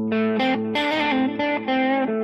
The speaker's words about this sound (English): I'll just use a static chord or a static note or something. Like I might just play the note A